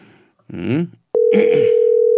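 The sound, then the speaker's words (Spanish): A telephone line tone sounds while a call is being placed: a steady, continuous single-pitch tone starts about halfway through and holds to the end. A voice speaks before it and briefly over its start. “Ya estamos llamando a Yor Velázquez. ¿No? ¿Nos atenderá?”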